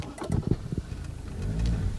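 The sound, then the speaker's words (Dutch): A car drives along a sandy dirt road through woods on the way from a village to the beach, a steady low rumble of engine and tyres with a few bumps early on, growing fuller and louder toward the end. “We rijden nu over een zandweg dwars door het bos.”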